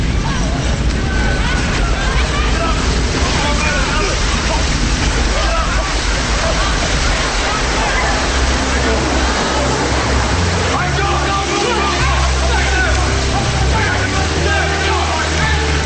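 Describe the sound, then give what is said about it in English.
Rushing water bursting through a wall and rising rapidly, a loud, continuous churning roar with deep rumbling and sloshing that stays constant and unbroken throughout. “and water bursts through the wall, rising rapidly. They get swept off their feet by the rushing water and then run up the stairs.”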